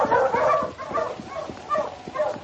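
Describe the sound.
Husky sled dogs on a snowy trail give a few short, mid-pitched yips and whining barks in an uneven run, fairly faint and alone.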